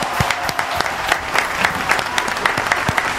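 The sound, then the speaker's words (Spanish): Audience applause at an informal evening contest final, with loud, dense clapping that stays steady and has sharp individual claps popping out of the crowd. “Poneme palma. El día jueves es el señor Marcelo Casal. Fuerte la aplauso. ¡Fuerte el aplauso!”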